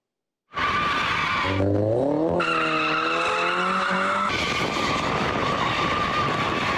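Tires screech as cars drift on a road in Ankara: a loud, continuous squeal that begins abruptly and keeps shifting in pitch, with a roaring engine beneath it and no talking.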